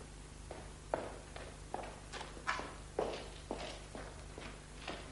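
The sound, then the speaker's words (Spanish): Footsteps of a man staggering across the courtyard of his country estate: a faint series of uneven, irregularly spaced steps, some heavier than others, over a low steady hum. “Don Quijote camina tambaleándose por el patio de su hacienda”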